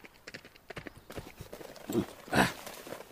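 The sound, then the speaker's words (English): Horse hooves clip-clop as riders set off on horseback, a quick run of many hoof beats that swells into a couple of louder bursts toward the end. “While Tonto rode toward town and Marshal Jack Forbes toward Raptor H”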